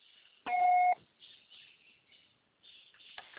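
A single voicemail beep cuts in, one short steady electronic tone lasting about half a second. It stands out loud against near-silence and a faint high hiss.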